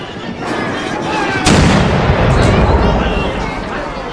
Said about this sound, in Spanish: El 23 de junio, poco antes de las 10 de la mañana, se abre el fuego a causa de la impaciencia de la gente.